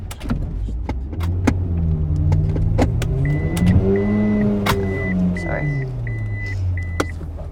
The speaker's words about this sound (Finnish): Ajamme auton kulman taakse. Teen elämäni huonoimman parkkeerauksen.